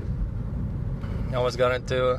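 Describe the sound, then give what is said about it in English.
Steady low road rumble from a car driving on a highway between Toronto and Montreal runs throughout, with a person talking over it in the second half. “We're driving right now from Toronto to Montreal, and cars in front of us suddenly stopped.”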